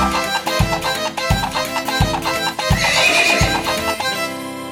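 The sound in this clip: A pony neighing over an upbeat children's song, the whinny rising above music with a steady, thumping bass beat throughout.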